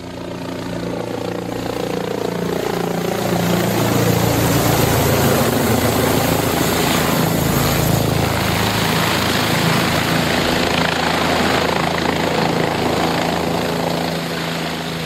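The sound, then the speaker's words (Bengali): A six-passenger helicopter flies over the endless sand dunes of the Taklamakan desert, its engine and rotor making a loud, steady droning hum with sustained tonal whine and no voices. “টাকলামাকানের অন্তহীন বালুতরঙ্গের উপর দিয়ে আমাদের ছয়জন যাত্রীবাহী helicopter উড়ে চলেছে।”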